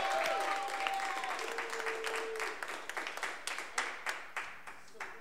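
Audience applause welcoming a guest on a live radio show, a dense burst of clapping that thins out into scattered individual claps toward the end.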